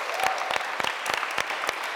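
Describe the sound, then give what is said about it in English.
An audience claps and applauds to thank a speaker, a steady patter of many hands with sharp individual claps standing out, continuous for about two seconds. “Give a big clap and thank you to Vicky.”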